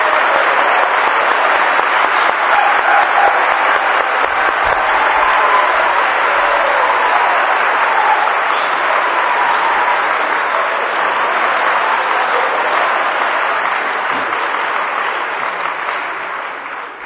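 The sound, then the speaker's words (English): A crowd gives a guest a big hand of welcome with sustained, dense applause that holds steady for about seventeen seconds before thinning slightly at the end. “And above all, let's give Lee Iams a great big hand of welcome.”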